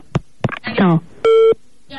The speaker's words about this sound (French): Hey, il m'a raccroché au nez direct.